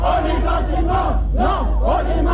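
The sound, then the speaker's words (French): Workers at a union protest at the IP site in Arquesenin shout and jeer together as a crowd, greeting a visiting official with a dense, continuous wall of raised voices that stays loud throughout. “C'était l'accueil réservé à M. Giraud par les travailleurs de l'IP à Arquesenin le 4 septembre”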